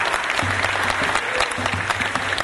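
An audience claps in thanks for a guest, a steady, crackling round of many hands that holds at an even, moderate loudness from start to finish.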